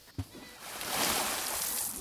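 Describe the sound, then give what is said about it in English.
A person falls into the ocean by the seashore, a brief knock followed by a swelling, broad wash of splashing water that lingers to the end. “I got a little shocked when the deer suddenly tried to eat my manji. And I guess I jerked back too much and fell into the ocean.”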